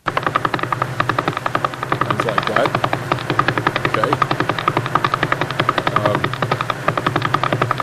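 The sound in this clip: A radio telescope recording of a pulsar spinning about 11 times per second: a rapid, evenly spaced train of buzzy noise pulses that runs the whole time, with the strength of the pulses varying slightly. A voice speaks briefly over it.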